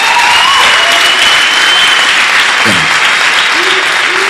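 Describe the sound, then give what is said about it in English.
Loud, continuous applause from a crowd at a church meeting, a dense, even wash of clapping that holds steady throughout, with faint voices beneath. “Those of you at the back, you are supposed to be clapping.”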